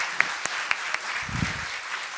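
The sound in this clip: Round of applause at a small congratulatory gathering, fairly quiet with a few sharp individual claps standing out from a soft clapping wash.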